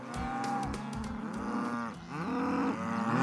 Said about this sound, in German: Auf dem Sophienhof in Neustrelitz machen sich die Rinder lautstark bemerkbar